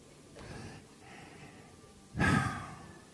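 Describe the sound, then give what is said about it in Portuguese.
A deep breath is drawn in with soft, airy inhaling sounds, then released through the mouth as a louder, breathy exhale that swells and fades. “respira, respira, dá uma respirada funda, solta o ar pela boca”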